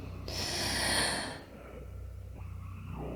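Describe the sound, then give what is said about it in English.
A single deep breath is drawn in during a guided relaxation exercise, a soft breathy rush lasting about a second that fades into quiet. “Focus. Breathe. In.”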